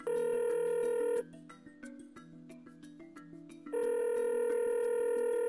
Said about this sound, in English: You want to give him a shout? Do it. Dial him up.